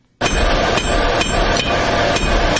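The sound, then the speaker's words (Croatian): A blacksmith's hammer strikes red-hot iron in a small forge, many heavy, evenly paced blows ringing over a dense, clangy metallic din with no voices. “udar čekića po usijanom željezu odjekuje i danas”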